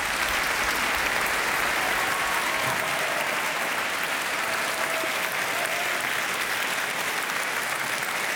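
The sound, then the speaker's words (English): Rousing applause from a concert audience follows an orchestra's performance of Dvořák's Carnival Overture, a loud, unbroken wall of clapping that holds steady for the whole stretch. “BBC Scottish Symphony Orchestra there to rousing applause at the end there in that buoyant rendition of Dvorak's Carnival Overture.”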